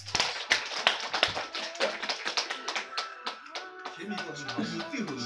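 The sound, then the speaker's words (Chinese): Applause after a sung performance: sharp, separate claps in an uneven rhythm from what sounds like a small group, thinning out as sustained musical tones take over toward the end. “掌声鼓励。”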